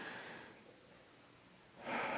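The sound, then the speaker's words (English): People take a deep breath in: a soft, breathy hiss at the start, then a louder rushing inhale in the final moments. “Just take the deepest breath that you can.”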